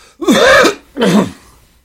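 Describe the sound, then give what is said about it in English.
An ill person coughs and clears the throat in two loud, rasping bursts, the first longer and harsher, the second shorter, with no speech around them. “I apologize for coughing and hacking, but that's what happens when I start talking.”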